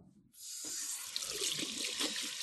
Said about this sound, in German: Hände waschen. Also hier rechte Seife.